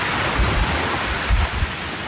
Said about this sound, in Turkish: Olumsuz hava koşulları Marmara'da deniz ulaşımını da etkiledi. Sağanak su baskınlarına yol açtı. Fırtına ağaçları devirdi, tekneler karaya oturdu.